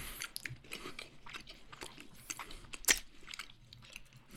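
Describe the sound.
Crisp bites and crunchy chewing of a pale, pudding-flavoured Kit Kat wafer: many quiet crackling chews with one sharper snap partway through, no talk.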